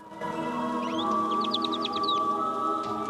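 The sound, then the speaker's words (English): Small birds chirp in a quick run of high, bright notes as they are startled off a kitchen table, the chirps faint over a steady low hum and ending partway through. “She steps quietly in, disturbing some little birds who fly up from the kitchen table.”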